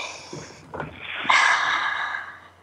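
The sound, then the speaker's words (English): A deep breath drawn in: a few soft, brief breathy sounds, then a steady airy rush of inhaled breath that swells and holds for over a second before easing off. “let's breathe that in.”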